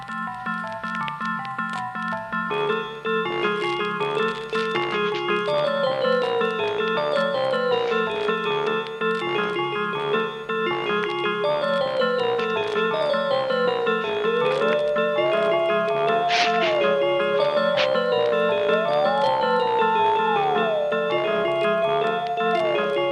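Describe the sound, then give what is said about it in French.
A synthesized musical jingle for a French radio programme plays alone, with no voices: a sustained low bass pattern under bright electronic melodic lines that step and glide up and down, holding steady loudness throughout. “on va envoyer un petit jingle”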